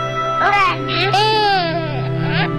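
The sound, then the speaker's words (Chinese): A baby cries in loud, wavering wails that rise and fall in pitch, continuous for nearly three seconds over a steady low hum. “宝贝别哭，爸爸抱。”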